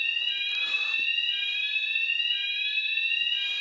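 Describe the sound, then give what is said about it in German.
A fire alarm sounds continuously with a shrill, steady electronic tone rich in overtones, unbroken from start to end and with no voices. “Alarm.”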